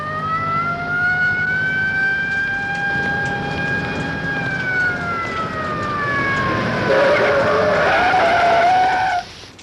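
A car drives away with a long engine tone that slowly falls in pitch. A police car then arrives, its loud wavering siren climbing before it cuts off abruptly.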